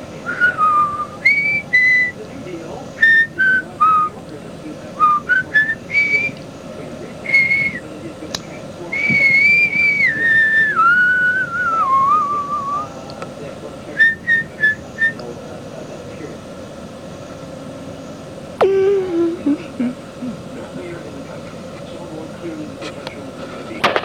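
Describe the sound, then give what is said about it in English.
A person whistles into a microphone in a long, melodic run of many notes that glide up and down in pitch, with short pauses between phrases and a lower sliding whistle near the end. “So, maybe I'll whistle in this thing.”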